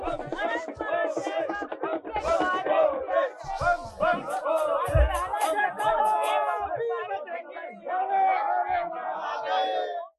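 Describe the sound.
Pilgrims chant the religious slogans Bam Bam Bhole and Har Har Mahadev at a Jammu base camp as the first Amarnath Yatra convoy leaves. Many loud, overlapping voices sustain the chant for about ten seconds, with a short dip near the end.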